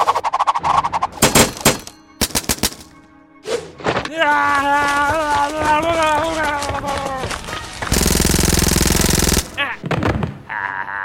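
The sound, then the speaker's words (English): Rapid Uzi gunfire in a video game fight against a katana, with sharp clattering bursts early, then voices talking, then a long sustained volley before more short shots. “Did you really think that would work against a katana and a Uzi? Yeah, I guess ninja skills are just pants against guns.”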